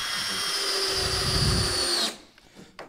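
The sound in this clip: A power drill drives a pan head screw, its motor whining loud and steady for about two seconds before cutting off and winding down, followed by a few faint clicks.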